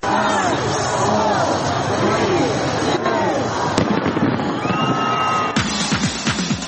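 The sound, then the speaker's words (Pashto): Fireworks crackle and bang at Sydney's 2022 New Year celebration, a dense, continuous barrage of bursts and popping with a few whistling tones, over a steady hum of crowd voices and cheering. “د استرالیا سیدنی ښار چې په یو ورځ د کورونا وایروس د خورا ډیرو کسانو داخته کېدو پیښې ثبت کړې وې د 2022 کال د هرکلی لپاره پکې خلکو اورلوبي وکړې.”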